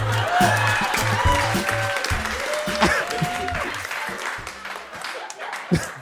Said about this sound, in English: Give it up for Nikolai.